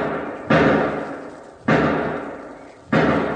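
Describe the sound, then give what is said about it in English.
Gunshots ring out near some sheds: three sharp, loud bangs about a second apart, each trailing off in a long decaying tail. No one speaks. “Hey, 5 shots. Sounds like it's over in one of those sheds.”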